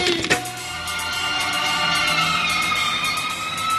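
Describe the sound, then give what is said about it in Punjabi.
A fire engine siren sounds loud and steady the whole way through, its layered tones holding nearly level after a brief sharp click at the start. “Fire brigade ਵਾਲੀ ਗੱਡੀ ਵੱਜ ਗਈ”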